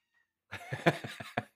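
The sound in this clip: Pet cat meowing in a quick run of short, rough, raspy calls with a pulsing rhythm, fairly faint, following a brief moment of near silence.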